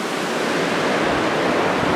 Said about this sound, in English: Waves everywhere. Beautiful ocean.